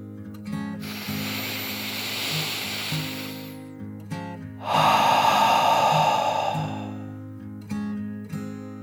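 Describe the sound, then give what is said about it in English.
A deep, slow breath drawn in and then let out, two long airy swells of breath noise, the second fuller and lower, heard over a soft, steady musical backing with no talking. “Kit took another deep dragon breath in and out.”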